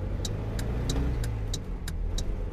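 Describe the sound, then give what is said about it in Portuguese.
A car engine drones steadily and loudly while overtaking, with about eight evenly spaced high ticks over it and no clear rise in engine pitch. “Motorista, qual desses dois sons você prefere ouvir na hora de fazer uma ultrapassagem? Esse?”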